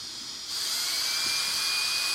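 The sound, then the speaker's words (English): A power drill spins a rod dipped in water. A soft hiss rises into a loud, steady, high-pitched whine that holds unbroken to the end. “we are going to stick this rod into our liquids, our water and our cake batter, and drill. and observe what happens. So if I do start drilling,”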